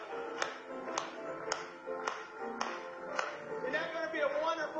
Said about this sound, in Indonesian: Mari kita bertepuk tangan kembali kepadanya sekali lagi.